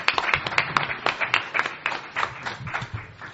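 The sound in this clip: Applause from an audience welcoming a lecturer to open an evening lecture: many quick, sharp claps in a steady, lively patter throughout.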